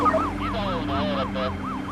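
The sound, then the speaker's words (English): A police car siren wails in a rapid, repeating up-and-down yelp, with many quick pitch sweeps at a steady, loud level. “A police officer turns on his lights and siren.”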